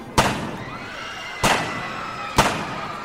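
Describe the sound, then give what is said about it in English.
Three sharp gunshots are fired point blank at a party. Each is a loud, sudden crack with a short decaying tail, spaced unevenly about a second apart. “Chalino shoots Chapo Perez 3 times point blank.”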